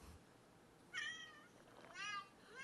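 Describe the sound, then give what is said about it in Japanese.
Two meows made by a human voice put through a voice changer to sound like a cat. They are clear, harmonic and fairly loud, about a second apart, over a quiet background. “猫の声にっぽくしたんだよ。ああ、音声変えたんだよ。”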